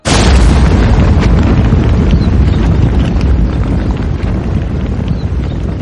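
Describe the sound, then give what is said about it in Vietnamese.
A thunderclap bursts as heavy rain begins to pour in mountain woods. The loud crack opens into a dense, constant roar of downpour that stays steady to the end. “Đặng Thanh Sơn bước vào trong núi, cùng với một tiếng sấm nổ, cơn mưa này bỗng chốc trở nên xối xả.”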